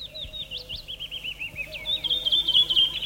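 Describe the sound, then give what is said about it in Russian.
Birds sing in a morning chorus in a birch grove near Leningrad in early May. High, quick chirps and trills repeat in short runs and grow louder and denser toward the end. “Вы слышите сейчас утренний хор птиц березовой рощи, записанный в начале мая под Ленинградом. Далекое кукование кукушки.”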